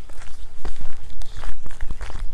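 Footsteps of someone walking outdoors: a steady rhythm of firm, fairly loud steps continues throughout, with no talking.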